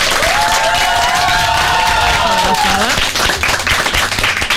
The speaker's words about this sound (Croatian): Pa možda neki pljesak da to ocijenimo.